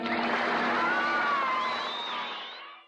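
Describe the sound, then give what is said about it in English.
A live studio audience at an old-time radio drama show cheers and whoops in a dense, sustained roar, with shrill whistling whoops rising above the crowd before it fades out. “Live audience there. They were in front of a large audience”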